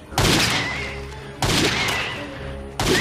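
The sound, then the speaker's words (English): Gunshots from a gun: three loud, booming blasts come at roughly even intervals, each with a long, rumbling decay that fades before the next shot. “And he shoots me with his gun.”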